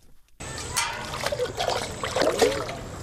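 Water sloshes and splashes in a container as it is carried from a pond at dawn, a continuous burbling that starts abruptly and keeps a steady, moderately loud churn.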